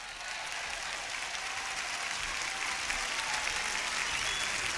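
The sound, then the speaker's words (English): Audience applause at a jazz concert fills the whole stretch as a dense, steady wash of clapping that holds an even level throughout, with no voices on top. “How about a big round of applause for John Hendricks?”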